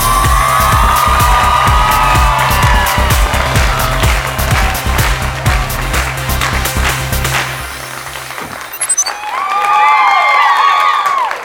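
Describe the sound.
A talk-show studio audience cheers and applauds as a guest arrives, with loud, dense clapping mixed with shouts and whoops, dipping briefly before surging again toward the end.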